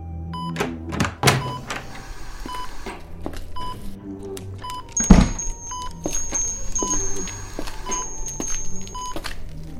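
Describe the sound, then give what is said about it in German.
Ventilators beeping at night on a neurology ward in a Hamburg hospital: scattered electronic beeps and a long steady tone mixed with soft thuds and mechanical clicks, one heavier thump near the middle. “Nur das Geräusch der Beatmungsmaschinen erklang wie eine traurige Melodie in der Dunkelheit.”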